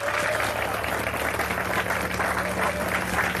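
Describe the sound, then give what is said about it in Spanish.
A church audience applauding during a service makes steady, dense clapping that holds at an even level from start to finish without a break. “Al Señor ese aplauso, déselo, hermano.”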